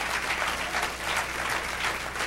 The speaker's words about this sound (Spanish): Un aplauso al Señor.